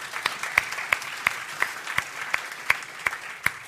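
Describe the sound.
An audience applauds to welcome a speaker, with fairly even, steady clapping in which sharp individual claps recur at a regular rhythm.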